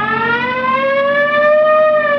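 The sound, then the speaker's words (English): A police car siren wails as one loud, sustained tone that climbs slowly in pitch and holds high, with no voices over it. “You want to hit the siren? Yeah. I got the light.”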